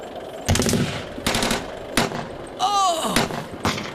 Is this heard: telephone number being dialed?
no